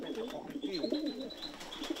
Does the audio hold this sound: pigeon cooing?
yes